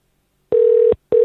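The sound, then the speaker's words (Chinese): A telephone call is being connected, its tone sounding as a steady low-pitched beep about 0.4 seconds long, then a short pause before the next beep begins. “电话咧就系正在接通当中嘅。”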